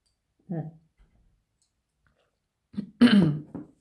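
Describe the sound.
Throat clearing in two short, rough bursts separated by a pause, the second louder and longer than the first, fairly faint and otherwise quiet.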